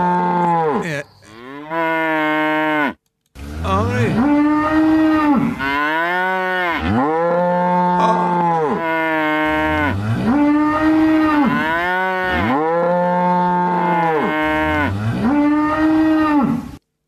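Cows moo back and forth in a series of long, loud, rich moos, several bending up and down in pitch. Each call follows another with only brief gaps.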